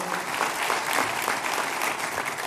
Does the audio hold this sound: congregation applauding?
yes